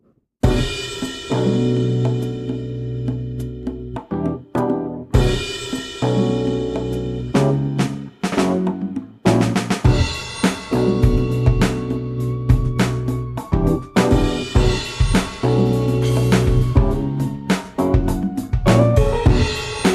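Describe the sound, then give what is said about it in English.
A drum beat played on AVL drum kit samples: loud, steady kick, snare and cymbal hits in a repeating groove, with short breaks near the five- and nine-second marks before the pattern resumes. “So it's basically the same drum beat that you just heard, but now with the AVL drum kits.”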